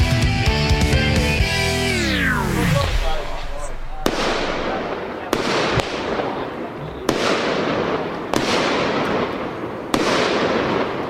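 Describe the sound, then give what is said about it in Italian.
Fireworks set off in Posillipo: about six sharp, loud bangs at irregular intervals over a crackling rumble, following a falling tone, with voices talking underneath. “non sono spari, sono fuochi d'artificio, fuochi pirotecnici, Posillipo, Brasile”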